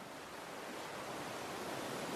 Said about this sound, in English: The relaxing sound of the water tumbling over the rocks gives you a sense of calm.